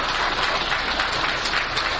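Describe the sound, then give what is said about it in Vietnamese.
Applause from an audience welcoming venerable elder Buddhist monks at a Vietnamese ceremony, a continuous even roar of many hands clapping together without a break. “Quý vị cho một tràng pháo tay để chúng ta cùng kính mừng và kính đón chư vị trưởng lão”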